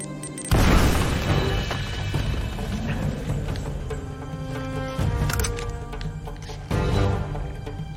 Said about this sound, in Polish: Ale może go wezmę granatem.